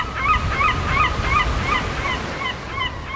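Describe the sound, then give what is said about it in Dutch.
Seagulls screech over an empty seaside resort on England's east coast, a run of many short, repeated high cries spaced fairly evenly over a steady, rushing background wash. “het enige wat je hoort is het gekrijs van meeuwen en de muziek van verlaten amusementshallen”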